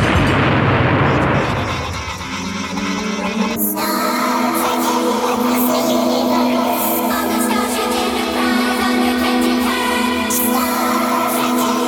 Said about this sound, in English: Explosion, that is physics